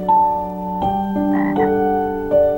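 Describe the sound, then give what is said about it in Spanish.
Toads croak in a steady, overlapping chorus, several droning calls layered together at a moderate level, with no talk. “A la mañana siguiente, más de 10 sapos se juntaron a escuchar su sueño.”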